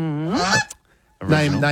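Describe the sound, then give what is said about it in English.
A goose honks twice, loud, nasal and harmonic, with a short silent gap between the two calls. “there was a big fire over in Texas where a goose named Goosey”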